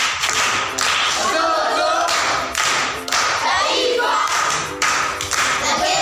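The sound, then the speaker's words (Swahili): Applause for a pupil reciting at a primary school event, a loud, dense patter of many hands clapping steadily throughout, with a few brief surges. “Makofi kwa mjomba.”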